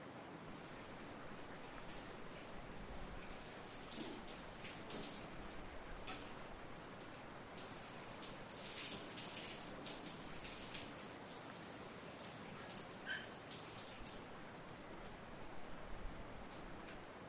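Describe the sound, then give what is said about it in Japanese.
Water pours and splashes steadily as a body is rinsed during bathing. It is a quiet, continuous hiss with scattered drips and ticks, unbroken for the whole stretch. “ではお流しいたします。”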